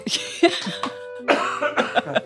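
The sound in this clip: Repeated coughing from someone who has just inhaled Coca-Cola: a rapid series of harsh, rough bursts that come in two uneven clusters, with a brief pause between them.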